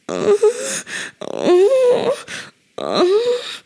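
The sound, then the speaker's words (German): People moaning during sex: breathy, wavering moans and groans come in a few bursts separated by brief pauses, loud and vocal with no spoken words. “Und ich finde, das ist oft die erste Assoziation. Wenn man andere beim Sex hört, ist es oft so.”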